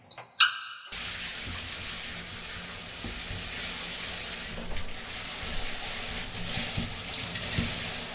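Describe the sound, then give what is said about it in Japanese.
Running water rinses shampoo out of hair, a steady broad hiss of flowing water that starts after a few brief soft clicks and continues evenly to the end. “じゃあそろそろシャンプー流しちゃおうね。”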